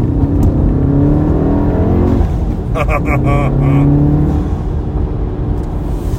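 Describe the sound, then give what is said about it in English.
The turbocharged engine of a black 2016 Golf R slick top with a manual clutch drones steadily on a test drive, low and loud, with faint shifting tonal harmonics above the rumble. “I don't want the turbo to tick when we go in there, so I better cool her off a little bit. But that was a good test drive, black on black, slick top Golf R”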